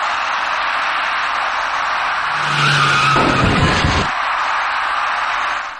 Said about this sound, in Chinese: 一辆由北向南开过来的深色小客因为躲闪不及，与骑车人发生了相撞事故。